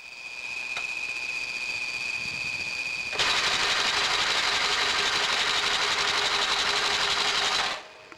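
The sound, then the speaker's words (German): A sewing machine whirs steadily as a cobbler stitches a customer's shoe sole in a camp in Lebanon, its buzzing, high-whined drone growing louder partway through before stopping abruptly near the end. “Salim näht gerade die Schuhsohle einer Kundin.”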